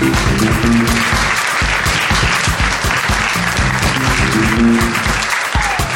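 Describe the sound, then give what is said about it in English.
A live audience at Abbey Road Studio applauds loudly and steadily, with whoops and cheers rising above the dense clapping. “Good whooping.”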